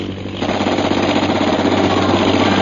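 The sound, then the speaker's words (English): Machine-gun fire from a fighter plane's mounted gun: a fast, continuous rattle of shots runs almost the whole length, loud and even, over a low droning undertone. “He's swinging the machine gun into position.”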